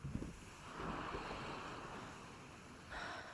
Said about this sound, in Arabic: شافت الموج عم يضرب بالصخر. حست بالهواء عم يلعب بفستانها.